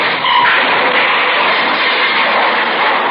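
A blue sedan speeding toward the listener: a loud, continuous rushing roar of engine and tires that holds steady for about three seconds, with no voices.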